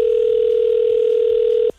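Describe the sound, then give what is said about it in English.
A loud, steady telephone dial tone hums while a call is placed to a contest winner, holding one unbroken pitch before cutting off abruptly near the end. “So let's give our winner a call right now who texted in to 107-300.”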